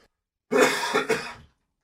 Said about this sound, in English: I used my cough button. I don't think it worked. It did. Our other microphones picked up the cough, though.